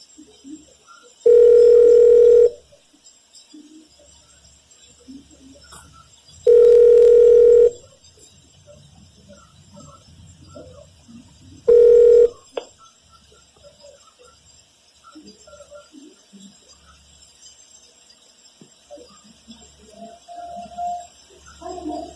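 Ringback of an outgoing telephone call: three steady, mid-pitched ring tones spaced about five seconds apart, the last one cut short, followed by quiet line noise with faint scattered sounds.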